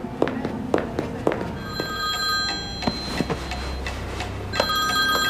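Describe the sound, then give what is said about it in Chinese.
A telephone rings in repeated bright electronic trills, at a moderate level, interrupted by a few sharp clicks and a low background hum. “哦，不好意思，我接个电话。”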